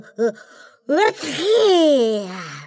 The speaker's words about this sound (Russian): Но ведь заводные игрушки не умеют кашлять и так громко чихать.